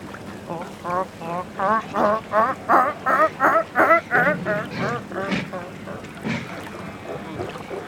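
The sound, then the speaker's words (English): A human voice imitates an Australian fur seal drying off on shore after a swim: a rapid, rhythmic run of many nasal, honking grunts that fade into softer, breathy huffs. “Can you be an Australian fur seal drying off on shore after a swim?”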